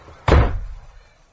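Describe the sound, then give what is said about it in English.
A toilet door slams shut with a single heavy thud whose low boom fades away over about a second. “There's always a toilet. Yes! And I can lock the door from the inside.”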